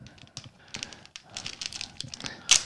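A Taro fish snack packet, original flavour, from Thailand, is torn open at its notch, giving crinkly, irregular plastic crackles and rips that end in a sharp, louder tearing burst.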